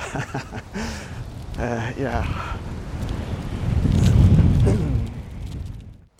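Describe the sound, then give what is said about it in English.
Strong wind gusts across a railroad bridge, a rough low rumble buffeting the microphone beneath a person talking, swelling loudest near the end before dropping away. “I'm on the railroad bridge and I'm almost blowing off this. The wind will catch a tiny guy like me and carry me off.”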